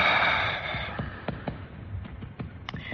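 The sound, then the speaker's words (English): A deep breath out during a doctor's examination: a soft, breathy rush fills the first second and fades away, followed by faint, scattered clicks and near quiet. “Exhale.”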